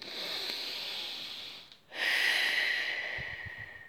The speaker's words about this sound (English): But then Bear takes a breath